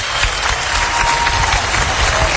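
Loud audience applause welcomes a singer to the stage. Many hands clap in a thick, continuous wash over a low rumble, and the level stays steady from start to finish.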